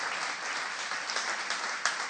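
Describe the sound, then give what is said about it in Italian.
Applause from a church audience during worship: dense, steady clapping that fills the whole clip, with a few sharper claps standing out near the end. “Facciamo un applauso al Signore.”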